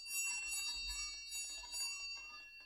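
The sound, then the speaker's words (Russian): A bell rings as a general call signal, a steady, quiet metallic ringing with bright sustained overtones that carries on through the whole clip without a break. “И еле успел подать по форме номер один позывной сигнал общий.”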